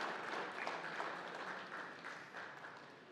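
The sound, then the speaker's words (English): A studio audience claps steadily in a dense round of applause to welcome people up onto a stage, holding at an even level throughout and easing off slightly at the end. “we're going to give them a round of applause to ease their transition up to the stage.”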